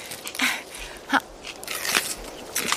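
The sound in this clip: Someone bites into a fresh apple during a mountain hike. A few crisp, sharp crunches come in separate bursts spaced through the moment, with quieter chewing between them.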